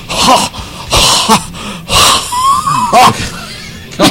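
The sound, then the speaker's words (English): A person wheezes in several rasping, breathy bursts separated by short pauses, with a thin whistling tone in the middle breath. “I think you're wheezing.”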